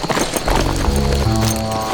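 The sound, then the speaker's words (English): Horse hooves clop as a horse is drawn to a halt, the hoofbeats mixed into a dense, sustained low backdrop. “drew his horse to a halt”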